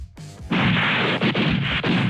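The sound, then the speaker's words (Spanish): A loud, sudden blast from a historic 75 mm Krupp cannon being test-fired in Santiago bursts in after about half a second. It stays as a heavy, sustained roar with a few brief dips, and no talk is heard. “No, no, era un cañonazo normal esa cosa que era.”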